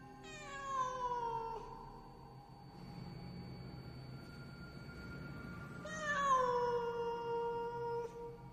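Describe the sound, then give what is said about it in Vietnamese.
A black cat yowls from bushes in two long, drawn-out cries separated by a few seconds of quiet. Each cry is faint and falls in pitch as it trails off. “trong bụi rậm, nơi có con vật mà nãy giờ tôi vẫn cứ nghĩ là con mèo, bỗng nhiên phát ra những tiếng gừ gừ. Sau đó, nó lại kêu lên.”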